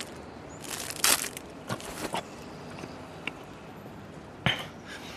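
Crunchy bites into melon bread: a few sharp, dry crunches come one after another, separated by quiet pauses, with a final louder crunch near the end.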